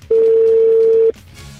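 A steady telephone dial tone sounds while a call is being placed, one unbroken tone lasting about a second before fading into faint background noise.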